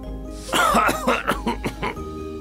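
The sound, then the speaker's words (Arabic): A man coughs after dust flies into his face while he is dusting furniture: one longer hacking cough followed by a quick run of shorter, harsh coughs. There is no talk. “فتطاير الغبار في وجهه وأخذ يسعل ويسعل كخروف أصابه البرد”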